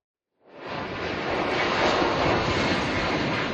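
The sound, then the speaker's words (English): Roar of a plane taking off from the Canary Islands: a broad, steady rushing noise that swells quickly after a brief silence, then holds at a loud, even level. “That is the sound of a plane taking off from the Canary Islands with the four Canadians on board.”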